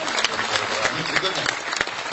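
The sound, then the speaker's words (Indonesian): An audience at a religious discussion gathering applauds the participants who raised questions. Quick, uneven clapping runs under talking. “Tepuk tangan untuk teman-teman yang membawa persoalan.”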